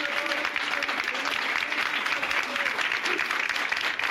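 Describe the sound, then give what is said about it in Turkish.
Municipal workers applaud in protest as the mayor makes her way into the council meeting hall, a dense, steady wash of clapping that continues without a break, with faint voices beneath it. “Başkan Ünsal alkışlar eşliğinde belediye meclis salonuna zorlukla giriş yaptı.”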